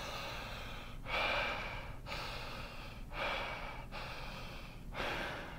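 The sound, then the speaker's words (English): Breathing through the mouth during a diaphragmatic breathing demonstration: three airy, hissing breaths at roughly even intervals, each about a second long, separated by quieter pauses, with no talking. “people typically breathe through their mouth too, so it's more like, and then a deeper breath would be more like.”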